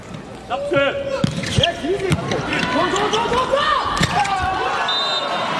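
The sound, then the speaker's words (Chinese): A slow jump serve in a men's volleyball match involving China, received by the opposing libero: a few sharp thuds of the ball stand out over a busy arena crowd, with a commentator talking throughout. “这个跳发球威胁不大，球比较慢啊，并且是给到了对方的自由人。”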